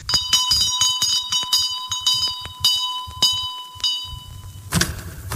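A bell ringing in a quick series of many sharp, loud strikes over a steady high ringing tone, heard alone with no talk.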